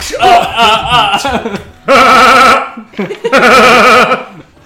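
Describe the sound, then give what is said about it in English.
A human voice imitates a billy goat's bleating laugh in three loud, quavering bursts with a strong wobbling tremolo, separated by short gaps and a brief softer bleat. “he does Billy Goat laughs and makes his way trotting.”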